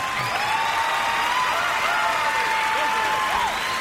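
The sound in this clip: Audience applause and some cheering welcoming a gospel group, a continuous dense clapping that carries on under a voice speaking.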